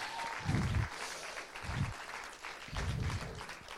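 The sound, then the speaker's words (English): Audience applause welcoming a woman to the stage, a broad clatter of many clapping hands that swells and eases in a few waves, with low thumps beneath it. “Why don't you welcome her? Give her a hand.”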